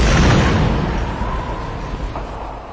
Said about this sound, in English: while outside the bombs imitate a Vesuvius erupting